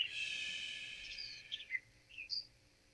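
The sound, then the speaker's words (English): Birds chirp outdoors in Jacksonville, Florida, faint and high. A drawn-out whistling call is followed by a few short, quick chirps over soft background hiss. “It feels so nice to hear the birds chirping.”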